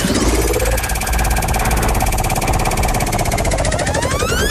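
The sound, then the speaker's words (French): A prize wheel spins on a game show with rapid, steady, loud clicking that runs throughout, while tones rise in pitch over it. “j'ai besoin que vous alliez faire un joli top pour tourner la roue”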